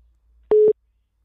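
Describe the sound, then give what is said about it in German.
A voicemail beep tone sounds on a phone call: one short, steady, mid-pitched electronic tone lasting about a fifth of a second, alone in otherwise near silence. “Ihr Gesprächspartner ist zurzeit nicht erreichbar. Bitte hinterlassen Sie eine Nachricht nach dem Ton.”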